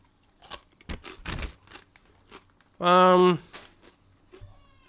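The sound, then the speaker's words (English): Crunchy bites into a lime-flavored Cracker Jack and Cheetos snack give several crisp crackles, then a brief voiced sound, followed by quieter chewing. “Let's go ahead and take a bite.”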